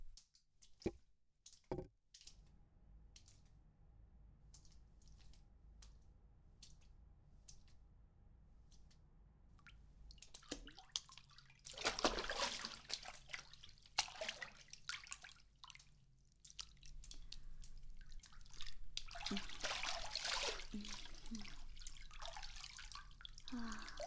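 Hot bath water drips and trickles: a few sharp, separate drips come first, then a louder, more continuous splashing trickle fills the second half.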